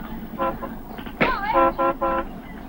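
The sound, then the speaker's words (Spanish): Car horns honking impatiently in traffic held up behind a truck: several short toots of varying length and pitch, some overlapping, over a steady low engine rumble. “Tras el camión que tapa la visión de lo que ocurre, los coches tocan el claxon impacientes.”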